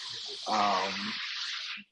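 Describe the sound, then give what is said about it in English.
Power washing outside, a steady hissing rush of high-pressure spray with a faint low hum beneath, holding at an even level before cutting off abruptly near the end. “I think they're power washing outside.”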